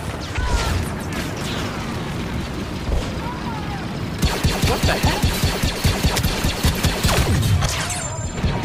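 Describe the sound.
Gunfire rattles in a Star Wars shooter video game. Scattered game noise comes first, then rapid bursts of shots repeat in a quick, steady rhythm.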